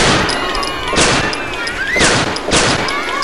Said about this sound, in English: You shot holes in all the canoes.